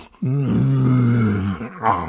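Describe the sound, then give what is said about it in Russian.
A cowardly lion growls once in a single low, sustained rumble with a steady pitch, then gives a short, breathy rasp. “Не бойтесь. Это же лев. Лев, царь зверей.”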